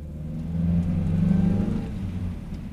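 A car pulls away at night as police officers set off after a suspect toward a long bridge. A low engine rumble swells steadily, peaks briefly near the middle, then eases back, with no voices.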